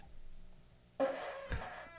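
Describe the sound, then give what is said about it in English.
A fart imitated with the mouth: after quiet, a sudden short buzzy burst with a tonal edge, then a second brief push, fairly faint and heard alone. “That was a hungover fart. Even the fart was like, I'm out. I don't have the energy. That's a medical fart.”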